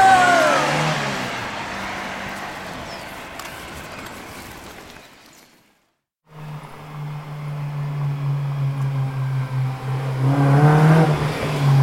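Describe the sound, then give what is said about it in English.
A car engine accelerates in fifth gear with a strong, rising drone. The sound drops out briefly partway through, then returns and builds steadily louder toward the end. “put your seatbelts on. Whoa, this is savage! No, Andy. Fifth gear is savage.”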